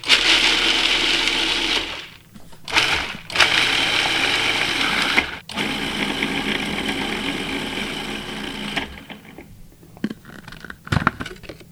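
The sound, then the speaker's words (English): A food processor chops garlic, pine nuts and salt, its loud whirring motor running in a few bursts separated by short pauses, then stopping, leaving only a few faint clicks and knocks. “And then we're going to pulse that until it's finely chopped. So we've got the garlic, pine nuts, and salt in the food processor.”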